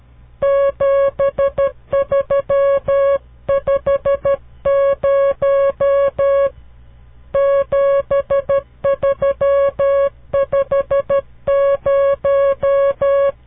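Morse code telegraphy signal sending the number 7350 as a steady single-pitch tone. Crisp short and long beeps form four groups separated by short silences.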